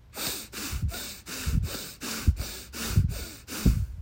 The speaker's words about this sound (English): So the power breath is only through the nose, and it's a forced inhale and exhale. So it sounds like this.